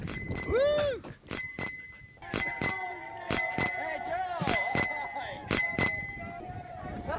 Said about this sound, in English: I didn't know he was using a little bell.